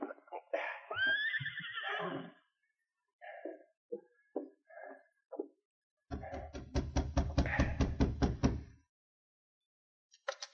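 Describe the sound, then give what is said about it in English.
A horse whinnies and snorts as it arrives and stops outside a cabin. A few short sounds follow, then a long run of rapid, rhythmic heavy thuds. “the others stopped in a grove of trees to wait, while Dave Logan rode on to the Perry cabin. Within a short time, he stopped outside the cabin.”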